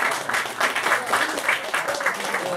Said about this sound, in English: Let's give everybody a round of applause. Give yourselves a round